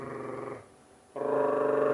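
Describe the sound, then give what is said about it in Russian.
A human voice imitates a growl with a low, buzzing rolled trill, practised as a vocal exercise; two steady bursts are separated by a short silent pause. “во-первых, как он рычит. Трель такая.”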